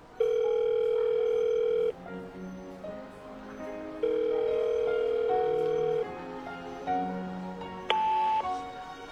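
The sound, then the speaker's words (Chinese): Ringing tone of an outgoing telephone call: two long, steady electronic tones of about two seconds each, separated by a gap, followed by shorter tones at shifting pitches. “温小辉先给洛邑打了个电话。”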